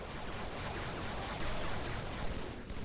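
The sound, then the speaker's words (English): Video game gunfire as players shoot at snipers: a dense, continuous barrage of shots rattles without clear gaps at fairly even loudness, with no voices. “What y'all doing up here? Shooting these snipers.”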